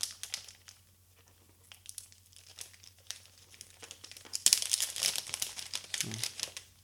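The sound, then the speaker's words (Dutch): Plastic packaging foil being crinkled and peeled off a new 7-inch Android device. Sparse, quieter rustles come first, then denser, louder crinkling bursts over a steady low hum. “ik ga het eventjes eh, de verpakking ook afhalen, plastic, folie, even verwijderen.”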